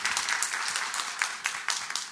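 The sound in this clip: An audience applauds to welcome speakers, with dense, continuous clapping that stays steady and fairly loud.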